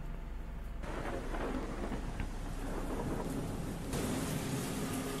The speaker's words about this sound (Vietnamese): trong tiếng gió, tiếng mưa ở bên ngoài, càng làm cho không khí thêm ảm đạm